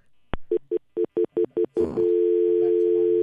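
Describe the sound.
A telephone line after a caller hangs up: a sharp click, six quick beeps, a brief burst of noise, then a steady, unbroken dial tone that holds clearly to the end.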